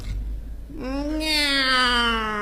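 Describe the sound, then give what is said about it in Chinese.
A human voice imitating a lazy cat's meow: one long, drawn-out meow that rises at the onset and then holds fairly level, loud and alone after a brief noisy moment. “喵。 哦，这还是个懒猫。”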